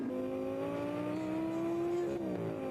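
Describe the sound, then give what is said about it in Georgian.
A small, fast sports car engine roars with a steady droning growl whose pitch climbs slowly, then drops sharply near the end. “ეს პატარა მანქანა ნამდვილი მონსტრივით ხმოის.”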